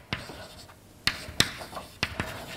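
Writing on a board during a maths lecture makes a few sharp taps and short scratchy strokes, separated by quiet pauses, with no speech over them.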